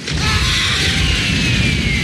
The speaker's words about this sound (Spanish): Y el helicóptero estalla.